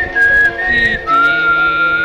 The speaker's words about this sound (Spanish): Más de uno aprendió a silbar con esto